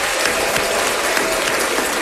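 Applause from a crowd: thick, continuous clapping at a steady, fairly loud level with no pauses or build-up, the individual claps blurring into a dense wash of sound.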